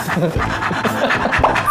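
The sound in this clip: A person imitates a panting dog during a charades-style guessing game, producing many quick, rhythmic, breathy huffs at a loud, steady level.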